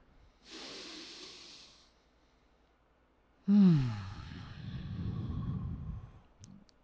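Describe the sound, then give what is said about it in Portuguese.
Deep breath drawn in during a breathing exercise, a long, airy hiss of over a second, followed after a pause by a louder, sighing exhale with a slight voiced edge. “Inspira uma última vez.”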